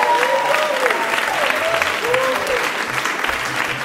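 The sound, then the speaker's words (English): A live audience applauds the evening's guests at the close of a stage show, steady, dense and loud clapping that holds for the whole stretch. “And could we give one more hand tonight to all our um, guests who I thought were just fantastic?”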